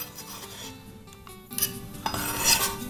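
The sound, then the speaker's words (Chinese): A knife cutting a small cucumber, with faint clinks and scrapes of the blade, then louder clattering bursts toward the end. “好，来切个小黄瓜，这个到时候是清爽，摆清爽的。”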